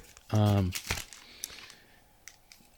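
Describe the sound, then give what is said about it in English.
Plastic wrapper of a booster card pack being opened, with a few sharp crinkles and small crackling clicks following a brief vocal sound. “I'll open that one. And inside of the package is actually another package of the actual card pack, the booster pack.”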